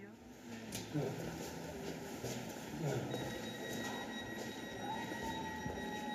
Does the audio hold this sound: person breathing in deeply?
no